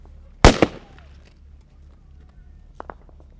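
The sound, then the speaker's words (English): Gunshots ring out during a 2010 Taliban attack on a Marine patrol in southern Afghanistan: two loud, sharp cracks close together near the start, then a few fainter pops later on. “Like during this 2010 battle in southern Afghanistan, when I was an NPR correspondent and the Taliban attacked the Marine patrol I was hunkered down with.”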